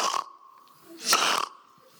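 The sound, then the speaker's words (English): A person snorts by breathing in, imitating a bull that paws the earth and snorts. Two rough, breathy bursts are separated by a quieter gap, with the second burst louder and longer. “you will realize you have to breathe in order to snort.”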